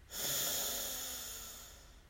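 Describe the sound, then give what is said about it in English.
A deep breath drawn in during a guided breathing exercise, a soft, airy hiss that starts abruptly and then slowly fades over about two seconds. “And one last time, breathe in”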